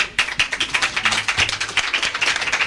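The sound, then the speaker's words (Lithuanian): Audience applause at a concert as a band is introduced: many brisk, sharp claps in a steady, fairly loud stream. “Jūs dar net nežinot, kai jūs girdėsit, o jau plojat.”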